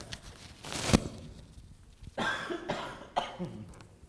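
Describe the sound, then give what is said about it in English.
A single slight cough stands out as one short, rough burst against an otherwise quiet background. “this thing is not good for a slight cough here.”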